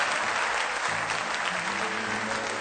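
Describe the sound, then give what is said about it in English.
A church audience applauds in praise, a dense, continuous wash of many hands clapping at steady loudness, with faint sustained musical tones underneath. “Give Him one more hand clap of praise if you love”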